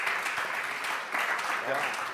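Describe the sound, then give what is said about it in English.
Audience applause at a church gathering honoring pastors: a steady, dense wash of clapping that holds at an even level through the whole stretch, with a few voices mixed in. “Clap your hands for the next shepherd. Yeah. Clap your hands for the pastors.”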